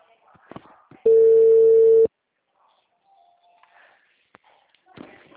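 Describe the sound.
A telephone ringback tone on an outgoing call sounds once as a steady, mid-pitched tone lasting about a second, with faint shuffling and handling noises before and after.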